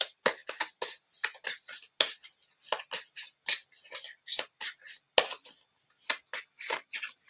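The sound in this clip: Cards from a wisdom deck are shuffled and handled, giving many sharp, crisp snaps and flicks in an uneven rhythm with short gaps between them.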